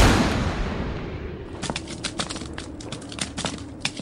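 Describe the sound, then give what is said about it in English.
An explosion as a character blows up: a loud, broad blast that fades over about a second and a half, followed by a rapid scatter of sharp crackling pops. “Oh, God! Holy shit, he exploded!”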